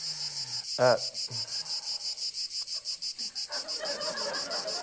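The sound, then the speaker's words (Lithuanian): Night crickets or cicadas chirp as an added sound effect, a steady, rapid pulsing trill that runs the whole way through, with a brief louder sound near the start. “Galima žiogelius uždėti šitoje vietoje, naktinius žiogelius, kurie taip pat. Cikadas, cikadas, cikadas.”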